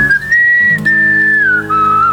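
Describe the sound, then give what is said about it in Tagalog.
A man whistles the melody of a 1989 rock ballad, a sustained high tone that holds steady, rises slightly, then steps down near the end, with low tones underneath. “Talagang pinito ko pa eh.”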